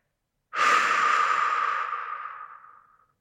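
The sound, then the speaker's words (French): A single long, slow breath taken during a guided relaxation exercise: a soft, airy rush that starts abruptly, holds steady, then gradually fades away over about two and a half seconds, with no talk over it. “À l'inspiration, vous évoquez ce support et tout ce qu'il véhicule en vous.”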